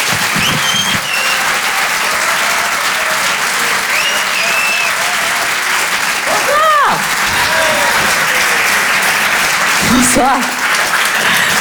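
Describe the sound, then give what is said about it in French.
Audience applause greets a comedian being introduced at a comedy club show: a dense, steady wash of clapping that fills the whole stretch, with voices and shouts briefly rising above it at moments. “Faites du bruit, s'il vous plaît, pour Mélodie Fontaine.”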